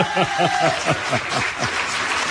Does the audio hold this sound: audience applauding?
yes